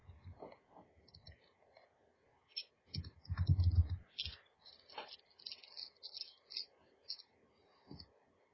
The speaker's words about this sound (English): Okay, so now I'm rolling 6 dice here.